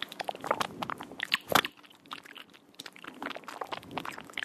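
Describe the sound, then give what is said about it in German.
Wet mouth noises run through a delay effect that shifts the sound in time: many rapid clicks, smacks and crunchy crackles in dense, uneven bursts, with a brief quieter stretch in the middle, and no voices. “habe dann natürlich naheliegenderweise ein bisschen mit dem Mund rumgespielt. Bearbeitet mit einem Delay-Effekt, der das Geräusch in der Zeit variiert, klingt das so.”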